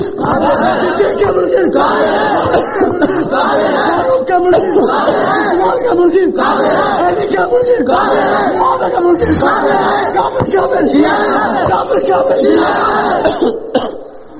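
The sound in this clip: A crowd chants a religious slogan in unison, in loud rhythmic phrases with short breaks between them, continuing almost without pause until a drop at the very end.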